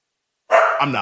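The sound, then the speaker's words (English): A dog gives one loud, short bark that begins abruptly after a moment of silence and holds a harmonic, slightly falling tone for about half a second. “Would you like for me to talk while you take care of your dog, or you tell me which would you'd like to do here?”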